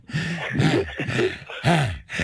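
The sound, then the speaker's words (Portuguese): A man breathes hard while walking, with several heavy, slightly voiced breaths in a steady rhythm. Each breath is a loud rasp separated by brief pauses. “Olha ele a respirar, a andar.”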